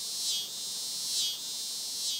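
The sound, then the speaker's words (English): Male cicadas calling to attract females, a dense high-pitched buzzing drone that swells and eases in three slow pulses, continuous throughout with no voices. “it may sound like a bit of a cacophony to us, but, you know, it's sweet music to a female cicada”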